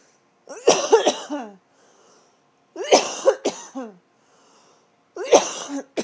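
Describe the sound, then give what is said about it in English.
Coughing from a person who has to cough something out: three separate bouts of harsh, throaty hacking coughs, each a short cluster of a few coughs, with quiet pauses between them. “Excuse me. But I have to cough it out.”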